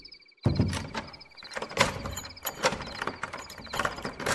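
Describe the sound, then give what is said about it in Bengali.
A door is opened at night in a Bengali drama scene: after a brief hush, a sudden clunk gives way to about four seconds of rough scraping and rattling of fairly steady loudness. “Byomkesh বাবু একবার দরজা খুলুন ব্যোমকেশ উঠে গিয়ে দরজা খুলল”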